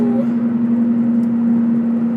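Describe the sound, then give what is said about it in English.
Steady droning hum inside a car driving along an empty road. A constant, even tonal whine holds throughout with no breaks. “I'm driving.”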